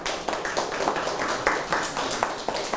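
Hands clap steadily in a classroom as applause. The quick, evenly spaced claps keep up a dense, continuous patter at moderate loudness.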